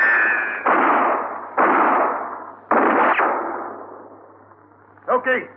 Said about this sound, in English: Now, if they start firing, get down behind this armor plate. Down!